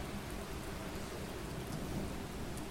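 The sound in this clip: Heavy rain pours down steadily around a bungalow, a dense, even hiss that holds at the same level throughout, with no voices.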